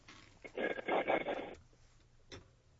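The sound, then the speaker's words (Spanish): A telephone ringing tone on an outgoing call to a listener, one buzzy, warbling ring lasting about a second, followed by quieter line noise and a faint brief blip. “no te preocupes, ahorita la reconciliamos, no nos cuelgues, ya le estamos marcando”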